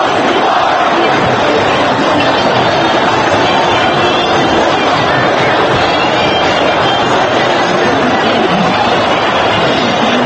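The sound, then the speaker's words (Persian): Thousands of people cheering in Cairo's Tahrir Square, a loud, unbroken roar of crowd voices with shouts blending into a dense mass of sound for the whole stretch. “شبکه های تلویزیونی مختلف در سرتاسر دنیا برنامه های عادی خود را قطع کرده و هزاران نفر در میدان تحریر قاهره را نشان می دهند که هلهله کنان منتظر سخنرانی حسنی مبارک هستند.”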